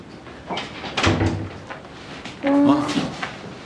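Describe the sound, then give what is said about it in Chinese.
A door at home is pushed shut, giving a couple of short knocks and thuds, with voices talking nearby. “快点把门关上。”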